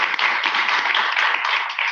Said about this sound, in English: Another round of applause for these wonderful people.